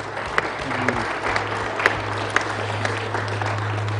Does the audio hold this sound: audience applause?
yes